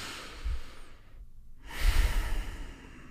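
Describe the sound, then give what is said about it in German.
Deep breathing during a guided relaxation exercise: two long, airy breath sounds separated by a short silence, the second louder and fuller, with no talk. “Nimm nochmal einmal zwei, drei tiefe Atemzüge.”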